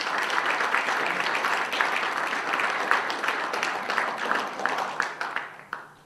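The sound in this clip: Audience applause welcoming a speaker to a Baltimore history talk: dense, steady clapping from many hands that holds at an even level, then tapers off and fades at the end.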